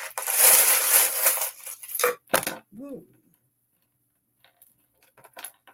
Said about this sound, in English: I'm going to pull a couple of charms and a card.